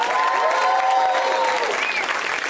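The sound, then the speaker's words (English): Loud audience applause at a live comedy show, with dense clapping and cheering voices sustained for a few seconds at a steady level. “Put your hands together. Keep it going for me. Let's hear it for me. Hooray.”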